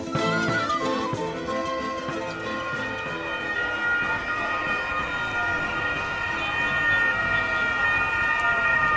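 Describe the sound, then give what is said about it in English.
Wailing sirens of the escort vehicles leading the Giro d'Italia bunch out through Molfetta in Puglia, loud and continuous, with overlapping tones sounding steadily over a dense road rumble. “That was the sound of the Giro d'Italia bunch riding out through Molfetta this morning in front of huge, very enthusiastic crowds.”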